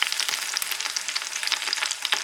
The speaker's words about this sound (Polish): O, świeży olej słychać.